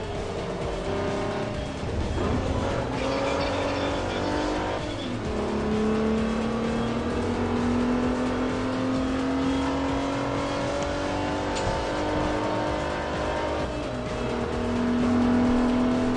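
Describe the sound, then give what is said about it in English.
A racing car driven around a track in a Forza video game. The engine revs high and steady, its pitch climbing through gear changes, with a constant loud roar throughout. “This is a weird track. This one was in Forza 2 as well.”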